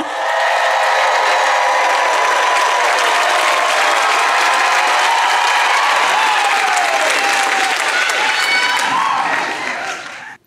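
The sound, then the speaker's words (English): A Charleston audience applauds and cheers for comedian Josh Johnson, with loud, sustained clapping and some cheers that fade out at the end. “Charleston, please make some noise for Josh Johnson!”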